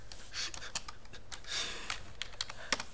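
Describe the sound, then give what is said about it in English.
Fingers tap on a computer keyboard in quick, irregular bursts of many soft key clicks, fairly faint and with no talking. “Shush, I'm trying to type.”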